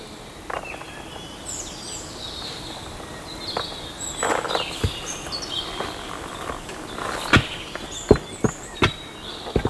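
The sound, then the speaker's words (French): Birds chirp in short, high tweets that come and go over a soft, hissy background. Sharp taps or clicks break in intermittently and grow more frequent toward the end. “Et les oreilles attentives captent les gazouillis des oiseaux.”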